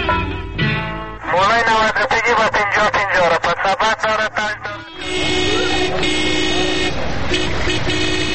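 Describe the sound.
Car horns honking in traffic: many short overlapping toots in quick, uneven succession, then a long sustained blare of steady horn tones that runs to the end over a dense roar of vehicles.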